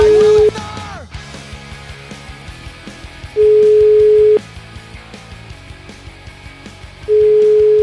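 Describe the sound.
Steady single-pitch telephone tone while a call is being placed, sounding as three long beeps separated by pauses of several seconds, over a quieter background bed.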